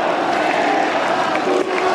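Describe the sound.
Crowd noise from spectators at a tennis match on court 14, a dense, steady wash of voices and cheering that holds at an even level without sharp peaks.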